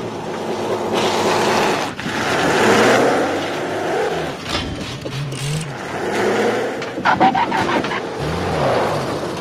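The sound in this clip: A car engine revs hard while its clutch strains and the vehicle sits hung up. The sound is a loud, rough, sustained roar whose pitch surges and dips throughout, with no pause.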